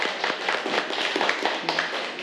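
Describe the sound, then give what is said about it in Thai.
Students in a math classroom clap for a classmate who presented, producing a busy patter of overlapping hand claps at moderate level, with a brief voice rising over them. “ปรบมือให้กับตัวแทนของเราค่ะ”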